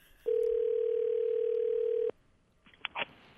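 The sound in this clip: Telephone ringback tone on an outgoing call: a single steady, loud, mid-pitched tone lasting about two seconds. It stops, and a few brief faint clicks follow.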